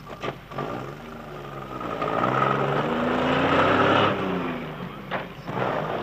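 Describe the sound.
Tractor engines drone as they work a harvested wheat field, a steady low rumble that swells louder through the middle and eases off toward the end.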